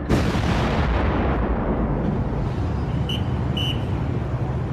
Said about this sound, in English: He orders his artillery to make the earth shake.